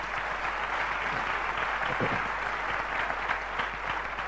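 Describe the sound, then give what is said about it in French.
A church audience at a French-language worship service applauds, producing a steady, dense patter of many hands clapping at a moderate level, even and unbroken from start to finish. “Est-ce qu'on peut acclamer le Seigneur Jésus?”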